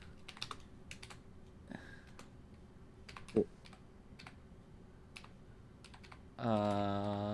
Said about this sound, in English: Sorry, I had to type that in.